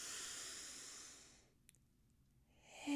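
A slow breath drawn in through the nose during a guided breathing exercise: a soft, airy hiss that fades out, followed by a pause, then another breath starting at the very end.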